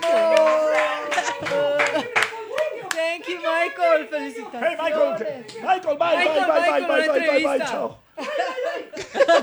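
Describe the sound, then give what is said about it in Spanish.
Clapping and chuckling break out among loud, excited voices as an audience applauds a guest. Sharp claps are densest in the first few seconds, then shouting and laughter dominate, with a brief dip near the end. “¡Aplauso para Michael!”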